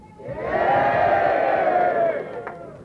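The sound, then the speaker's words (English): A crowd shouts yay together in a show-of-hands vote: one loud, sustained group shout that swells in, holds for over a second and then trails off. “Well, let's have a show of hands and a yay for those that are all in favor and staying shut down.”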